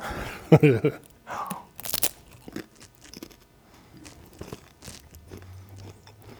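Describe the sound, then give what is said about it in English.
Crunchy chewing of homemade food eaten during a Seder-plate explanation: a few loud, crisp crunches early, then softer intermittent chewing and mouth sounds. “You have to hear your chewing.”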